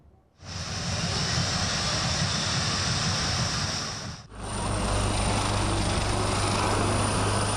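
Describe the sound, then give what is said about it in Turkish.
Military jets at an aviation festival in İzmir produce a loud, dense roar that holds for several seconds, dips briefly near the middle, then swells again to a steady rushing blast. “Savaş uçakları, helikopterler ve milli teknolojiler.”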